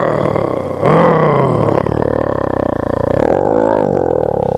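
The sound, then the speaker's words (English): A human voice imitates an angry lion's roar. It is a loud, sustained, gravelly growl that holds for several seconds with a rough, throaty texture. “But when He's angry, you know, sometimes we look like a lion when we get angry. You know, we go,”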